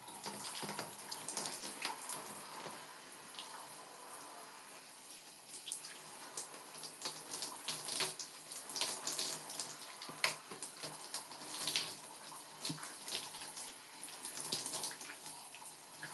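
Faint, steady hiss of shower water running continuously, with small splashy fluctuations and no voices.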